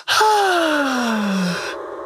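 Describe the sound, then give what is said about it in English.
A guitar is played to sound like a human sigh. One long, smooth tone glides steadily downward in pitch, loud and alone, then fades into a soft airy hiss. “The first thing I loved were the sighs in the beginning. Those sighs. It's actually a guitar. And it made it sound like that.”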